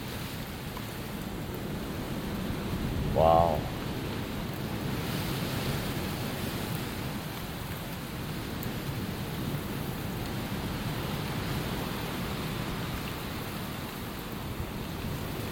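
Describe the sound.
Strong wind and surf roar on a stormy night outside a shed, a dense, steady rushing noise throughout with gusty swells. A person gives a brief exclamation early on.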